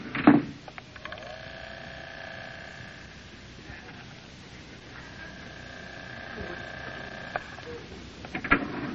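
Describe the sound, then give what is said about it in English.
Descending hotel elevator from a radio comedy sound effect: a steady low hum with sustained whining tones, bracketed by a knock at the start and a couple of sharp knocks near the end. “You know, you get such a beautiful view from way up here. Yeah. Hurry, there's the elevator. Down, please. Watch your step, Mary.”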